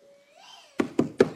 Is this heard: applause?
no